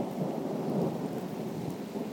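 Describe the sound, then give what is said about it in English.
Steady rain pours down in a dense, continuous rushing hiss with a low rumbling undertone, unbroken from start to finish. “I'm like standing in the rain and it's really wet now.”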